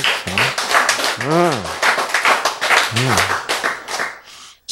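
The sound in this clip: A lecture audience claps in a loud, dense run of quick hand claps. Voices call out and laugh over the clapping, which carries on steadily and then thins out near the end.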